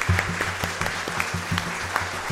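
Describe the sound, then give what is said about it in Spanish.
Applause for the Virgin at a parish gathering, steady clapping with sharper claps standing out at intervals over a repeating, rhythmic low tone pattern. “Sí, un aplauso a la Virgen.”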